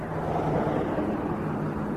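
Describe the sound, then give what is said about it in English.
A police car driving past, heard as a steady, broad roar of road noise that stays fairly loud throughout. “A cop car just went by. I don't see it slowing or anything like that.”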